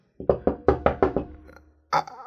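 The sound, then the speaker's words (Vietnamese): Knocking on a hotel room door: a rapid run of about seven sharp knocks that start loud and trail off, then a short pause before one more firm knock. “Bạn qua tới bên cái căn phòng đó, bạn gõ cửa cốc, cốc, cốc.”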